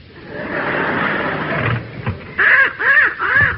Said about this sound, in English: What's that you've got? A little crow, ma'am.